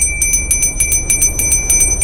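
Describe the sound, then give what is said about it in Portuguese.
A small handbell is rung during a gypsy tarot card reading. Bright, high metallic strikes repeat in a rapid, fairly steady jingle through the whole clip, with no voices. “Toco aqui o meu sininho.”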